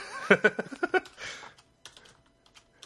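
Typing on a computer keyboard: a quick, uneven run of crisp keystroke clicks, followed by a short burst of noise and then a few faint scattered taps, with no voices.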